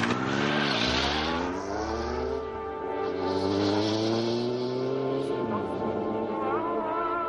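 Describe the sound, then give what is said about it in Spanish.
A car engine runs continuously as the car arrives at a roadside bar, loud throughout, its pitch rising and falling several times as it revs and shifts. “El coche de Brand llega a un bar de carretera.”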